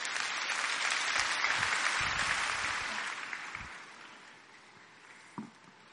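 Applause at a church gathering, a dense patter of many clapping hands that holds steady and then gradually fades away to near silence.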